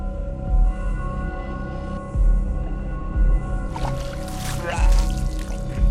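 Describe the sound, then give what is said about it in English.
A person vomiting water: low, heaving thumps over a steady droning background, then a wet gush of splashing liquid near the end. “vomits water”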